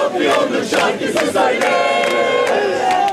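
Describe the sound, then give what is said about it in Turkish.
Fenerbahçe football fans celebrate a semifinal win out on Bağdat Avenue in Istanbul, fans of all ages together: a loud, continuous crowd roar of shouting and chanting, with repeated sharp bursts rising out of the din. “İşte görüyorsunuz şu an Bağdat Caddesi'nde büyük bir coşku var. Kutlamalara her yaştan taraftar katıldı.”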